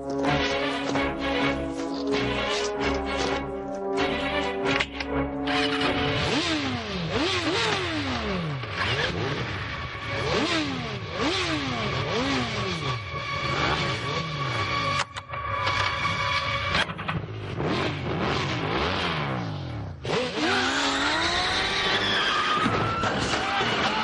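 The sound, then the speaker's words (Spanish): Motorcycles start off, rev and skid as a rider in a black motorcycle suit and five men ride away in an action chase. Loud engines whine up and down in pitch over and over, mixed with tire screeches. “Ella y cinco hombres suben en motos.”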